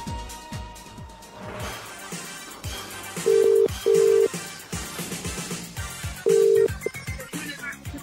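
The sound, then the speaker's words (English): Telephone ring tones sound over music while a competition winner is rung back: three steady, loud mid-pitched tone bursts, two close together and a third after a gap. “we're ringing the, the winner back of tonight's competition two after this track.”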